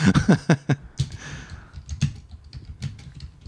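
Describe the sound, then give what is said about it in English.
Someone types on a computer keyboard in many quick, irregular clicks. A brisk burst opens, then sparser keystrokes follow, soft and alone with no talk. “I type real slow. It's great to hear the sound effect.”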